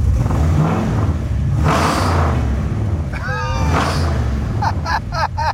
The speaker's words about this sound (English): All you need is gas. And as you pull it back, give it a little juice.